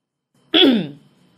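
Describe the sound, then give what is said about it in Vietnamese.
A man clears his throat with a single short, voiced ahem that slides downward in pitch. It is heard alone, and no knocking on the door is evident. “Duy Thành nửa mừng nửa lo, đứng trước phòng cô hắng giọng gõ cửa”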